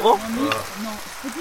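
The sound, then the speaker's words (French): Potatoes frying in a pan, a steady crackling sizzle running beneath people talking. “Le doux bruit des patates.”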